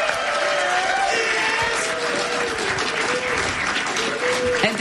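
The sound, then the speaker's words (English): An audience applauds a band after a live session at a recording studio in Dublin, a continuous, full-bodied round of clapping that stays level and steady from start to finish. “Yeah, big hand for the band.”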